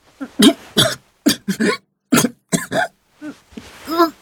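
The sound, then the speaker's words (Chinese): Many harsh, choked coughs and throat-clearing bursts from a young man whose throat is being pressed. They come in uneven, closely spaced clusters and are loud against silence, as if acted out. “因为喉咙被压得喘不上来气，他咳嗽了两声，挣扎起来。”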